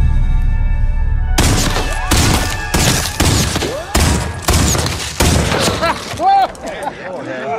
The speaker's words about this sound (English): That's some fancy shooting there.